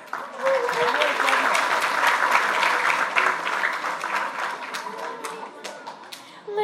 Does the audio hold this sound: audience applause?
yes